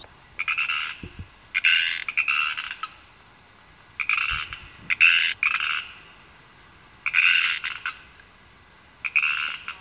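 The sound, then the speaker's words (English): Pacific tree frogs, also called Pacific chorus frogs, calling in repeated groups of two or three raspy, mid-high croaks separated by short pauses, loud and steady throughout with no talking. “now that's the sound of a Pacific tree frog, right? And there is some controversy as to whether it should be Pacific chorus frog or tree frog”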